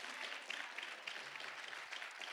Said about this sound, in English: Clap your hands if you believe it today.